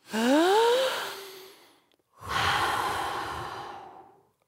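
Heavy breathing to catch breath after an energetic movement song. Two long, loud exhales follow each other. The first opens with a voiced, sighing rise, and the second is a breathy whoosh that slowly fades out.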